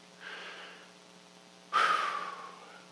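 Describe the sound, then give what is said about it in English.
Deep breaths taken together: a faint airy breath first, then a louder and longer breath that starts suddenly and trails off, carrying a slight voiced tone. “Just take a deep breath with me. If you're in the room or you're at home, just take a breath with me. Let's do it again.”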